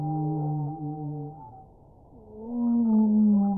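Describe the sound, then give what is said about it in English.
Humpback whale song, from a type of baleen whale: low, humming tonal moans rich in harmonics, one sustained call fading and dipping midway before a louder, slightly higher moan swells and holds to the end. “It's the song of a humpback whale, a type of baleen whale.”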